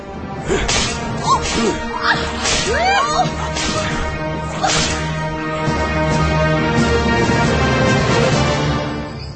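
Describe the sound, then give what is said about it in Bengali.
Whip lashes crack again and again at an irregular pace, sharp snaps over a dense, sustained backdrop with sliding, cry-like tones. “ওই আমার সাবুকটা দে, সাবুকটা দে, ওই আমার সাবুকটা দে, দে।”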